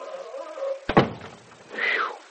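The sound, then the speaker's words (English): A door is shut with a single solid thunk, followed by a short fading rumble. Moderately loud, with soft rubbing before and after. “Here, wait, I'll close the door.”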